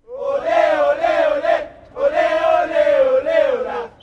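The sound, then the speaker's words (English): About a dozen die-hard soccer fans cheer and chant outside Cruz Azul's huge Estadio Azul in Mexico, locked out of the game. Voices rise together in two loud, sustained bursts separated by a short pause. “A dozen disappointed yet still die-hard fans cheered outside the huge Estadio Azul, home of the Cruz Azul soccer team.”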